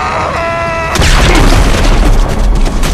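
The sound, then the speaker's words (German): A rock bursts apart in a fiery explosion: after a brief tonal drone, a sudden deep boom erupts and rolls on as a loud, dense, rumbling roar until the end. “Und dann, als hätte ihn eine Bombe von innen gesprengt, zerplatzte der Felsen in einem Regen aus glutrotem Feuer und gelbgrünem Nebel.”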